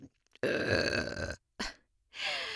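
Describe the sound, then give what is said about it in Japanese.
A person burps: a long, loud, deep voiced belch, then a short grunt-like burst, then a final shorter burp, with brief silences between them. “てかゲップ好きすぎでしょ。どんだけゲップ好きなの。”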